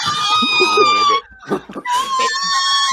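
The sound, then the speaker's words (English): A dog outside a house lets out long, high-pitched whining howls. Two drawn-out squealing cries are separated by a short gap filled with brief grunting sounds. “And that's our dog outside.”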